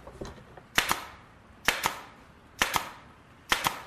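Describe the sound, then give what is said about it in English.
Sharp cracking shots of a nail gun driving nails into hard wood: four evenly spaced bursts, each a quick double snap, standing out from a quiet background with no talk. “The nails won't go in. The wood is too hard. I think I'm gonna need the nail gun.”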